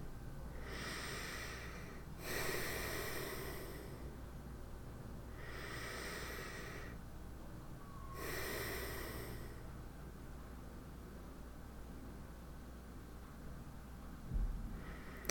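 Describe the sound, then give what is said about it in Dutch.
Two slow, deep breaths, each a drawn-out airy inhale followed by a hissing exhale, faint and alone against a low steady hiss. “En dan wil ik je vragen om twee keer heel diep in en uit te ademen.”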